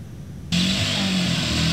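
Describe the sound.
A motorcycle pulling a vendor's cart loaded with goods starts up: after half a second of quiet the engine catches abruptly and settles straight into a steady, humming idle.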